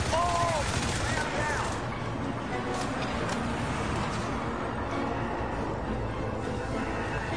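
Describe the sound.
Rapid gunfire from a video game shooter, a dense, unbroken clatter of shots that runs loud and steady through the whole stretch.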